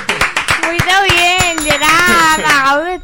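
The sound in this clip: An audience applauds with brisk, rapid claps in the first second, then the clapping thins under a loud, drawn-out shouting voice.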